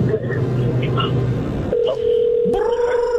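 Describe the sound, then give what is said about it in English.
Telephone being dialed during a call-in, with loud electronic tones holding steady and then jumping to a higher pitch over a constant low rumble. “Our caller is calling somebody else.”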